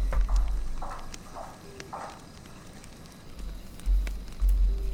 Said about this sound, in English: A woman in heels. Walking in the basement, right?